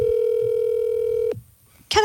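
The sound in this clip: Phone ringback tone on an outgoing call: one long, steady, mid-pitched tone that holds, cuts off into silence, then a voice briefly begins.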